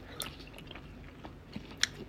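Soft chewing of mochi rice cake from a shabu-shabu hot pot, faint and moist, with a few small squishy bites and one sharper click near the end.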